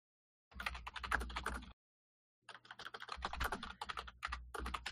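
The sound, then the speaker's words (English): Rapid typing on a computer keyboard: two bursts of quick, dense key clatter separated by a short silent pause, with no voices. “I'm typing”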